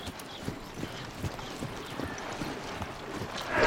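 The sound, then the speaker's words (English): Horse hooves clip-clop steadily as a rider crosses a sunlit meadow toward a shaded path. The light, even beats come at a regular walking rhythm, faint and alone, with no voices. “In the background, the man on the horse crosses a sunlit meadow to the shadowed path.”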